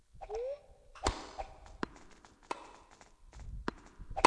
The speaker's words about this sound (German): Und zwar im Sitzen. Ja, deswegen geht der Ball auch ins Aus. Beim Tennis.